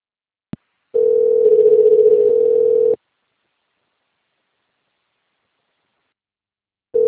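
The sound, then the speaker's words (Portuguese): A voicemail beep on a phone line comes in as a brief click, then a steady, mid-pitched electronic tone lasting about two seconds. After a long silence, a second tone starts just at the end. “Sua chamada está sendo encaminhada para a caixa de mensagens e estará sujeita à cobrança após o sinal.”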